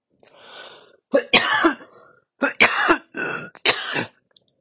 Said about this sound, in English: I was coughing.